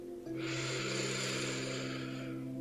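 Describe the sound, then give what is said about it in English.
A deep breath drawn in during a guided breathing exercise: a soft, airy inhale that starts after a brief pause and stays steady for about two seconds over a faint sustained tone. “So let's take one more deep breath in.”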